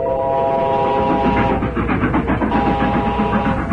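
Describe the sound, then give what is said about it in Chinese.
A train loaded with military supplies whistles and rushes past a trackside railway shift hut: a sustained whistle tone sounds at the start and again later over a loud, continuous rumble with rhythmic clattering pulses. “远处突然传来火车的叫声，不一会儿，一辆装满军用物资的列车便呼啸着从倒班房旁边开了过去。”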